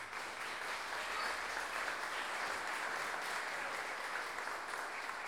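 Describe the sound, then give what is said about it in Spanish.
Audience applause at a payador contrapunto tournament: a steady, dense wash of many hands clapping that runs without pause or fade for the whole stretch. “don Francisco Astorga, por quien pido un fuerte aplauso.”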